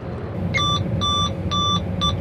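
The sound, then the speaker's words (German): A locomotive's safety control (driver vigilance system) beeping to check that the driver is still responding: four short, bright electronic beeps, evenly spaced about half a second apart, over a steady low rumble of the moving train. “Was ist das, was da immer piepst zwischendurch? Ja, das ist eine sehr interessante Einrichtung, das ist die Sicherheitssteuerung. Das heisst, die Lokomotive schaut, ob der Lokführer noch an seinem Platz ist und ob er noch reagiert.”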